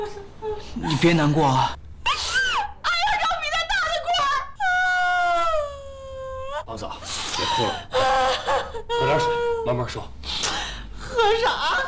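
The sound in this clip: A woman cries hard, with long wavering wails and broken, sobbing breaths running almost continuously and loudly through the whole stretch, with gasping catches between the drawn-out cries.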